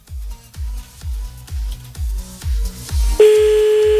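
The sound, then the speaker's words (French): A telephone ringback tone sounds while a caller tries someone again. A steady, sustained tone comes in near the end, after a thumping low beat with regular pulses. “On le rappelle encore un petit coup, là, le collègue.”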